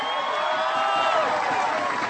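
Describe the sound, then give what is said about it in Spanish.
Crowd of townspeople in Durango cheering and applauding, a dense, steady mass of clapping and raised voices that stays at an even, moderate level throughout. “Un aplauso para el pueblo de Durango.”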